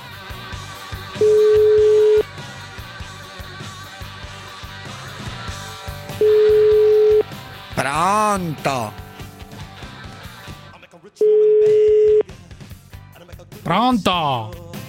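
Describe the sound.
Telephone tones as a call is placed: three steady, single-pitch beeps, each about a second long and evenly spaced, with people talking in between.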